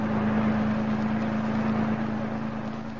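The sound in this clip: A car drives on a road upstate, giving a steady engine drone with a constant low hum under a smooth, even rush of road noise, unchanging throughout.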